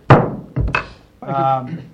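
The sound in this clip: A gavel bangs down to close a 4-3 vote in a legislative committee meeting. A few sharp wooden knocks come in quick succession, followed by a voice speaking.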